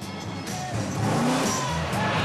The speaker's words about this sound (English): The car loses grip on the snow and begins to weave from side to side.